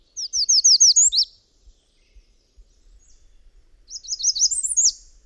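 A flock of birds, such as robins and American redstarts feeding on wild grapes in fall, chirps in two bursts of rapid, high, repeated notes separated by a quiet gap of a few seconds.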